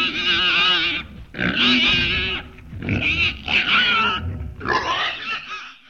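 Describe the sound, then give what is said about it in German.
Happy grunting of a small piglet standing at the bow of a sailboat in salty wind, coming in several long, squealy, nasal bursts separated by short pauses, fairly loud and alone. “stand Jule vorn am Bug, hielt die Nase in den salzigen Wind und grunzte vor Glück.”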